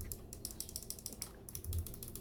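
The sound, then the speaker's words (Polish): Game controller d-pad on a Zotac Gaming Zone handheld clicking, a quick, irregular run of many light, crisp, mouse-like clicks, quiet and alone with no talk. “Nad tym mamy krzyżak, który jest świetnie jakby zrobiony i on klika właśnie tak. Jak myszka.”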